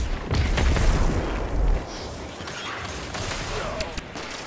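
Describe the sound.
Grenade explosion in the video game Destiny 2: a heavy, low boom that rumbles for nearly two seconds, then dense, noisy game sounds that continue at a steady level.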